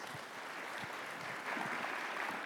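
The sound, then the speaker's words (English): Audience applause welcomes a pastor back to the stage at a church gathering: a steady, dense wash of many hands clapping that holds even and fairly quiet throughout, swelling slightly near the end, with no voices on top. “And so let's put our hands together.”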